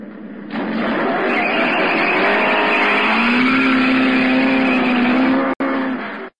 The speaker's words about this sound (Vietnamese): Xe chiếc xe vọt đi, cả hai chìm vào đám xe cổ, biến mất tiêu.